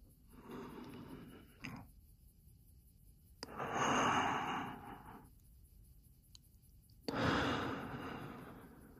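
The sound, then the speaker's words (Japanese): A person breathes in and exhales slowly, making three long, airy breath sounds that swell and fade, separated by quiet pauses. “俺に呼吸を合わせろ。吸って、ただ長く吐き出せ。”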